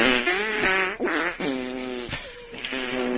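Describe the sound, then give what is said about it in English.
Fart noises play a holiday jingle-bells tune as a string of buzzy, pitched blasts of varying length, running almost continuously with brief gaps between notes. “has sent us a holiday farting jingle bell”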